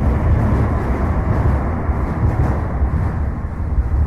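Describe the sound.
Traffic noise from a bridge over the Sava in Belgrade, a steady, loud, low rumbling roar that holds without a break and has no voices over it.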